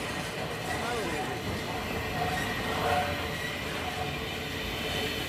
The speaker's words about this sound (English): The train slows as it passes a long, low green building to the left on the outskirts of the station.